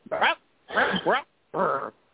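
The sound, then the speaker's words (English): A Chihuahua gives three short, whiny yipping bursts separated by brief pauses. The bursts are moderately loud and carry no other sound. “Ralph, the Chihuahua dog, you good?”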